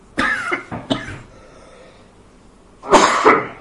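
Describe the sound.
Someone coughs with something stuck in the back of the throat: two short harsh coughs close together, a pause, then a longer, rougher bout of coughing, loud against a quiet background.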